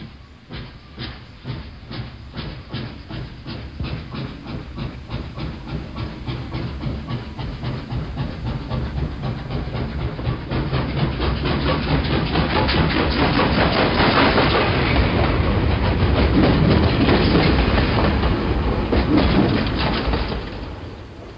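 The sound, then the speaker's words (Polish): A train passes with a broad rushing hiss and rapid rhythmic clatter, growing steadily louder to a sustained peak near the end before easing off slightly. “Pociąg.”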